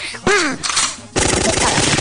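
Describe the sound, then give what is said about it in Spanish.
Firecrackers exploding in a dense string of sharp, loud pops for the last second, after a shorter, rougher burst of noise. “¿Cómo se dice? ¿Cuete o trique? ¿Aquí lo conoce como trique, abuelito?”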